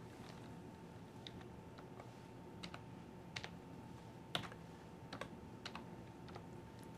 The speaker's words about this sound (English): Oh my gosh, what am I going to type? Because I can't type today, so it could be anything.